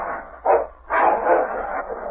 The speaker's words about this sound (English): The dogs rolled in the snarling heat.